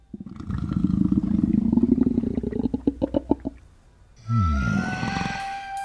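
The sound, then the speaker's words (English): A tiger's hungry tummy rumbling, as a loud, low growling rumble that breaks into a series of separate throbbing pulses, goes quiet briefly, then returns as a shorter warbling groan that slides downward. “Mummy comes back with a bowl of sugar lumps, and the tiger's tummy starts to rumble.”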